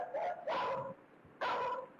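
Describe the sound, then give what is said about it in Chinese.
A guard dog barks wildly in a yard at night: three sharp, fairly faint barks, with two close together and a third after a short pause. “看家狗突然从窝里冲了出来，跑到院子中央，冲着画面外的一个方向狂吠不止。”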